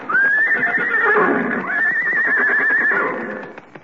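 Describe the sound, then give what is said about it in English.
Horses being led in for a ride give two long, high, wavering whinnies, one after the other, with clip-clopping hooves beneath them. “Well, here he comes with the horses. Yeah, here are the horses”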